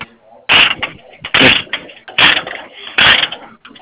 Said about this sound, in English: sounds like you're ratcheting on something. I am, I'm chaining the machine up.